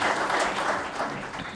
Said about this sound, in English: Mr. Rémy Marcoux, founder and director at Transcontinental. Yes, he deserves a round of applause.